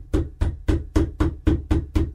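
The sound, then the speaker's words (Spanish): Heavy knocking on a door: eight loud, evenly spaced thuds with a booming low end, repeated in a steady rhythm with no voices. “empezaron a golpear otra vez.”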